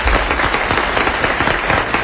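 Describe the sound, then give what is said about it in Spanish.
Applause from an audience welcoming a guest onto a show, a dense and continuous patter of many hands, fairly loud, with a muffled, dull top end. “¡Hombre, un aplauso para Enrique!”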